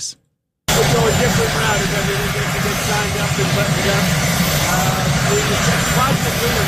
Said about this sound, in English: I apologize for the helicopter noise behind this comment, but you should be able to make it out.